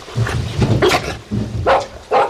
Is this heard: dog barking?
yes